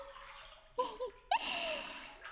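Faint splashing of hot bath water, with a few short bursts of sloshing and gurgling as someone moves in the tub, and a longer swirl of water towards the end.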